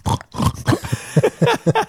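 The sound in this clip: A human voice imitating a wild boar: a rapid series of short, low, nasal snorting grunts, each a brief burst, produced alone.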